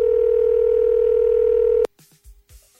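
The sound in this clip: A telephone dial tone: a steady, loud, even hum holds for almost two seconds, then cuts off abruptly and gives way to a few faint, low knocks.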